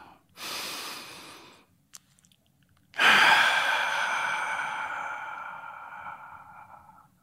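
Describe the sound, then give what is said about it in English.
A deep breath: a breathy inhale of about a second, a short pause, then a long sighing exhale with a slightly tonal, whistling edge that fades slowly over about four seconds, with no talk. “Let's take a deep breath.”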